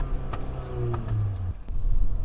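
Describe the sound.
Steady low road rumble inside a car driving in the rain, with the radio off and wipers mostly off, droning evenly throughout, with a few faint ticks.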